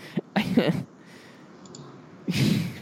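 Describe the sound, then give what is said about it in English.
Keys clack on a computer keyboard in quick bursts, mixed with people talking, with a quieter gap in the middle. “Don't type. You don't need to type.”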